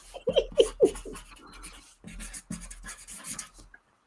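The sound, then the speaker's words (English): Writing on paper, with scratchy strokes that come in irregular bursts, some sharper and louder and others faint, before the sound fades to quiet near the end. “Okay, I'm writing.”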